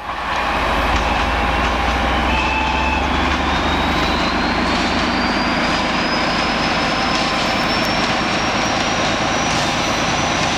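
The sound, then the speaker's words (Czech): A Czech 'brejlovec' diesel locomotive passes a level crossing in fog. It makes a loud, steady rumbling roar throughout, and a thin high whine slowly rises in pitch as it goes by. “No je to brejlovec. Stál 2 hodiny v mlze u přejezdu”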